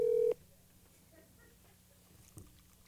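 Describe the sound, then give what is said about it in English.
A telephone dialing tone sounds as a call is placed live on a radio station: one short, loud, steady electronic tone at the start, then only a faint low hum. “I think it was so good, I'm going to give him a call. You're going to call your dad on air? I'm going to call my dad on air.”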